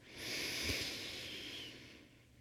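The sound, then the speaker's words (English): A long deep inhale during a guided breathing exercise, a soft airy hiss that swells and holds for about two seconds before fading. No voices. “And 3 more giant deep breaths.”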